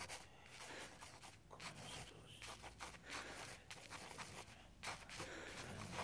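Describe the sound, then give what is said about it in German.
A pencil scratches across paper in a run of short, dry writing strokes, very faint and continuous, with slight rubbing and scraping textures and no talk. “Hier hast du Papier und Bleistift. Schreib auf, was du hier willst.”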